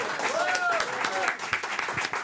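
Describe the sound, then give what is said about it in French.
Audience applause fills the whole moment, a dense and steady wash of clapping that holds at an even loudness from start to finish. “Magnifique, on applaudit.”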